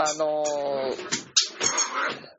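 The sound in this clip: A frustrated dog vocalizes in a studio: a drawn-out, high, whining cry gives way to several shorter, rough yelps and grumbles of varying loudness.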